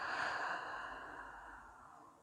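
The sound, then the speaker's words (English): A deep breath is released in one long, soft, airy exhale that slowly fades, with no talking over it. “Take a deep breath in and breathe out.”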